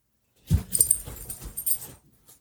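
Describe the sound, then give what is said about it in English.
A dog whines and stirs restlessly while someone tries to get it to lie down. A cluster of short whimpers and scuffling bursts comes in quick succession, then a faint final sound after a pause. “As you can hear my dog in the background, I'm trying to get him to lay down.”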